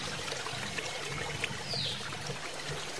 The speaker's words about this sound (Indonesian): Tanya Renggali saat air yang mengalir semakin banyak dan mengenangi kaki Renggali.